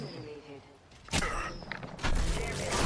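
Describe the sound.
Gunfire in the video game Apex Legends, a couple of sharp, loud bursts cutting through the game sound, with a voice talking in the mix.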